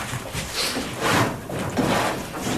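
A wardrobe door is opened and handled during a search for a hidden way in. A few soft, swelling scrapes and rustles rise and fall in quick succession.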